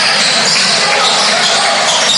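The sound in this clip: A basketball is dribbled during a high school game between Marion Local and Fort Recovery, under a steady wash of loud crowd noise that masks any separate bounces.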